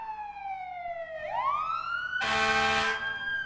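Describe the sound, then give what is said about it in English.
Sirens wail from three fire trucks in a steady tone that slides downward, then sweeps back up. A harsh, loud blaring blast cuts in partway through, then the siren tone carries on. “Fire trucks, three of them.”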